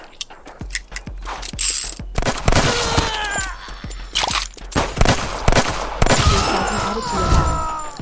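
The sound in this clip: Mechanical clicks and ratcheting clatter of a gun being reloaded in a video game, with several sharp, loud transients and a few bursts like gunfire over eight seconds, plus brief tonal game effects.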